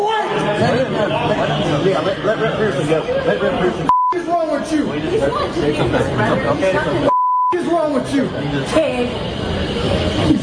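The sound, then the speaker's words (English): Two short, flat, mid-pitched censorship bleeps cut over profanity in a man's angry words to a law enforcement officer, amid a dense mix of overlapping raised voices. “We're going to have to bleep out what he said to this fine law enforcement officer”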